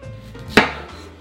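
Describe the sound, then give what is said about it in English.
One sharp knife chop slices through a peeled, washed yam being cut into bite-sized pieces, a crisp single hit that decays quickly over a faint background. “I've already peeled and washed all the yams. And I'm gonna slice it up into bite-sized pieces.”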